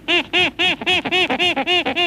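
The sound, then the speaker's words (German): A small monkey calls in a rapid series of about ten harsh, nasal squawks, evenly spaced and loud, each a rising-falling bark with rich overtones, heard alone without talk. “Und der kleine Affe, was sagte der eben?”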